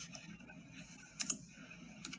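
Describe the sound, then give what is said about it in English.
Faint keystrokes on a computer keyboard as a web search for mattress manufacturers is typed in, with soft, scattered clicks and a couple of sharper taps over a low hum. “And I'm going to just type in mattress manufacturers”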